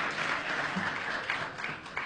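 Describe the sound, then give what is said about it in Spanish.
Audience applause for a guest at a live show, a steady, fairly soft patter of clapping that continues through the whole clip. “Un aplauso para Fede, por favor, vamos.”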